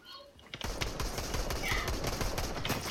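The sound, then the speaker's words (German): Fortnite gunfire: a rapid, dense barrage of shots that starts after a brief quieter moment and keeps up loudly to the end. “Dann geschossen.”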